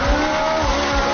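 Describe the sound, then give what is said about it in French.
Ferrari sports car engine revving hard with tyres squealing: a loud, steady high whine and rasp holding throughout, over a low throbbing pulse that recurs a few times. “Eh oui, normalement, une Ferrari, vous savez, Mathieu, vous le savez, ça sonne comme ça.”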